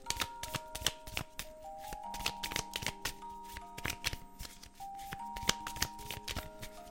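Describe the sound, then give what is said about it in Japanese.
A deck of cards is riffled and shuffled in many quick, crisp snaps with an irregular rhythm, over soft, sustained background music. “この切るのも私まだ慣れなくてさちょっとあれよねよし頑張ってシャッフルしていきます”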